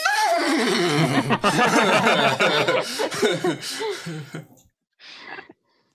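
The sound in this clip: A person's voice imitating a horse neighing: a loud, wavering, trembling whinny that falls in pitch at the start and shakes on for several seconds, then breaks off, followed by a short breathy burst.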